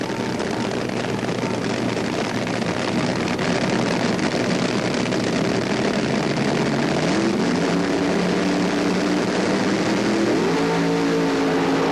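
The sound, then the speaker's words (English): Loud, roaring engines of two drag racing cars sit at the starting line after their burnouts, during eliminations at the 1977 Gatornationals. The heavy, continuous roar never drops, and its pitch climbs in steps toward the end. “Both cars now approaching the starting line, their burnouts completed.”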